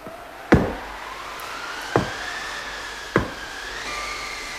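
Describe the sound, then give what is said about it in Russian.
Knocking at a door on a quiet winter evening: three separate sharp knocks, spaced roughly a second and a half apart, over a faint steady background tone. “Кто-то стучится к нам. Слышишь, Краснозорька?”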